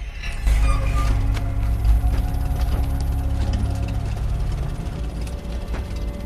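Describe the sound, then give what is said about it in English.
An old, grimy petrol-powered generator sputters beside a house, giving off smoke as it runs. It makes a loud, low chugging rumble with irregular knocking beats that keeps going without a break. “Rounding the corner of a house, he discovers a spluttering petrol-powered generator.”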